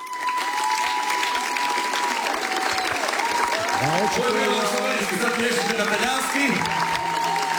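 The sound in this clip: An audience applauds a live duo's song with sustained, loud, evenly textured clapping that carries on without a break, and a voice is heard over the clapping.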